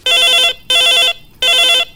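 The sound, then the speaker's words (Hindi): Telephone ringing loudly in three even, bright electronic bursts separated by short gaps, with a fourth ring just starting at the end. “और बाज गई ये phone की घंटी train train train train.”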